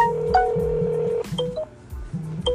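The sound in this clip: A telephone being dialed: a quick run of touch-tone keypad beeps of differing pitch, with a steady high tone sounding under the first half and then cutting off.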